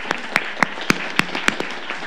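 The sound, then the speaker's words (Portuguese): Sparse, evenly spaced hand claps at the close of an Escola Legislativa event in Brazil, sharp and distinct in a steady rhythm, with a few fainter claps between the louder ones. “Palmas para a Olívia e para essa equipe aqui também.”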